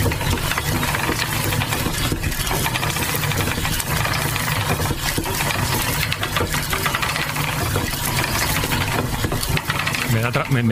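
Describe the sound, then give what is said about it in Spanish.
A traditional spinning wheel turns steadily with a dense, continuous whirring and rattling drone. A fast, regular mechanical clatter runs under it throughout, with no voices. “en las hilanderas, la rueca está trabajando, está sonando y tiene un sonido que sonaría así.”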